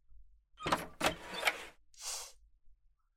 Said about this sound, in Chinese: 用钥匙打开这扇门，没问题吧？我开了